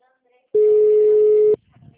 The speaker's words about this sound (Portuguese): eles não atende lá. Tô ligando, ó. Não atende.